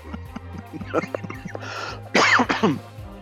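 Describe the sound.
A person clears their throat with a couple of short, harsh rasping bursts, the second louder, following a moment of soft talk.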